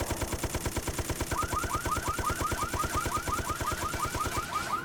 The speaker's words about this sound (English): Weapon list, machine gun.